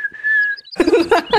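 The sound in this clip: A person whistles an imitation of a skylark's song: a held high whistled note with a few quick flourishes, then a burst of rapid, dense warbling notes.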